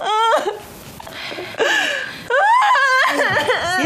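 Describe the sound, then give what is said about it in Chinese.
A woman crying in distress, with loud, wavering, high-pitched wails and sobs broken by short catches of breath. “别哭了啊”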